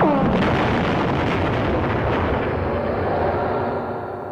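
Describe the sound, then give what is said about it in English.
A computer bank explodes in a science-fiction radio drama sound effect: one loud, broad burst that opens into a roaring, rumbling wash. The sound gradually fades over about four seconds. “The computer bank is absorbing a hell of a lot of energy. I think it's about to blow.”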